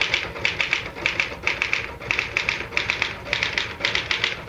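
Typing on a typewriter: quick, sharp keystrokes fall in short rhythmic bursts, with brief pauses between clusters, and no voices.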